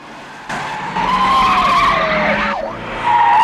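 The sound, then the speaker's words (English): Tires squeal and engines roar as cars skid and speed in a James Bond car chase, with Bond spinning around a crossroads and pursuers circling. A long, gliding screech falls in pitch, then a fresh squeal starts at the end. “Back on the tarmac, Bond spins around a crossroads, sending the pursuing vehicles in circles as he speeds off again.”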